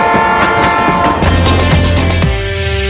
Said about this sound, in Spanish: Nos subimos al tren, entonces vamos con el chacachá del tren.